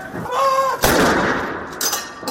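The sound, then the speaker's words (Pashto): Cannon fire from a gun salute at a royal military funeral, with soldiers standing in ranks at a castle. Two heavy booming blasts sound, the first loud with a long decay and the second shorter near the end. “د درناوي لپاره د توپونو ډزې وشوې”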